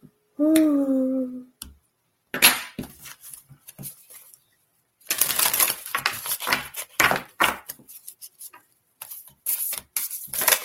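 Tarot cards being shuffled give bursts of quick, dry, clicky flicks that come in uneven clusters separated by short pauses.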